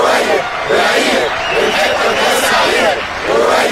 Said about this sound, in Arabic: يا حبايبي اشكركم اشكركم، ارجوكم بلاش هتافات شخصية، فليبقى العلم ويزول الاشخاص.